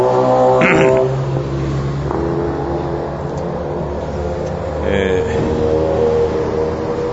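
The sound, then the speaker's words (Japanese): A car pulls out of a club onto a street and drives off, with a steady, loud engine rumble and layered hum that swells slightly near the end over continuous background noise. “ブリティッシュクラブから車が出てきました”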